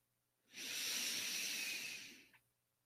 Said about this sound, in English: Deep inhale. Ready? Here we go.